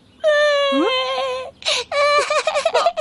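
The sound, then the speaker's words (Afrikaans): A child cries with one long, high, sustained wail, then breaks into a run of short, choppy sobs. “Hoekom huil jy?”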